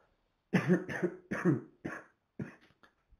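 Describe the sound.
A man coughs repeatedly in a run of harsh, throaty bursts. The first few are loudest and close together, then they trail off into smaller, quieter coughs.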